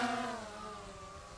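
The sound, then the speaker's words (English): Remote-controlled camera aircraft taking off and flying: a steady whirring motor drone with layered humming tones that sink slightly in pitch as it lifts away. “Up and down, we'll spin it around one way and the other, and it looks like we have full control of the aircraft, so we can let it go.”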